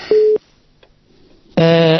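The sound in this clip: A telephone busy tone sounds after a caller drops from a phone-in line: two short, steady tone bursts separated by a near-silent gap, the first a pure single pitch and the second a buzzier, richer tone.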